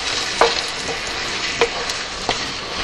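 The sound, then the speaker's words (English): Steady crackling hiss of food frying in a sizzling pan as it is poured in, a broad, even sizzle broken by a few soft knocks. “I'm bringing it over here, and I am going to just pour this into this pan, all of it”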